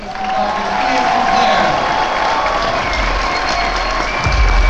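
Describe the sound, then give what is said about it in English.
Audience applause at a fan convention, a loud, steady wash of clapping blended with crowd noise and voices that holds for the whole stretch. “Please, round of applause.”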